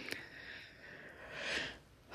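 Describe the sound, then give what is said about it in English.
A deep breath drawn in during a guided breathing exercise: a soft, airy inhale that swells and fades, then a sharper rush of breath at the very end. “I invite you to just place your hand on your chest for a moment and just take a deep breath with me.”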